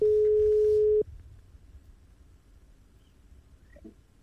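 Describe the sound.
A telephone ringback tone as a call is placed: one steady, mid-pitched tone lasting about a second, cutting off abruptly into quiet line hiss.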